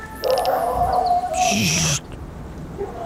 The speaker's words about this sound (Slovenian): Slišite to lajanje?